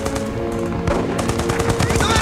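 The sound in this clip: Loud, dense gunfire as soldiers open fire on German troops, with a machine gun among the weapons: rapid overlapping shots and bursts rattle continuously without a pause.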